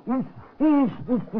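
An owl hoots four times in quick, uneven succession. Each call is a rounded tone that swells and fades, and the second hoot is the longest and loudest.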